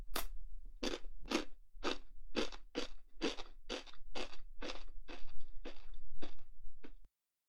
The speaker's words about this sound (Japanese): しょっぱいもの食べると喉乾くね。